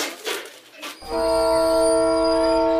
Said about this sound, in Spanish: me dirijo hacia la ciudad de Matola, estoy saliendo de Maputo y el tren ha salido con una puntualidad suiza